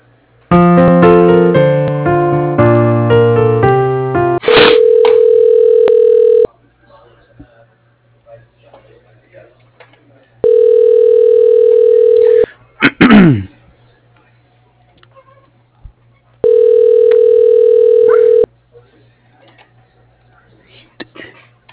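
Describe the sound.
Telephone ringing while a call is transferred: three long, steady ringback tones of about two seconds each, separated by quiet pauses and preceded by a brief run of electronic tones.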